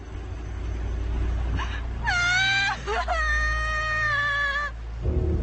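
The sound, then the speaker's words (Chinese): A child cries in a few high, drawn-out wails that waver in pitch, the longest lasting about two seconds, over a low steady rumble. “你别哭，别哭。”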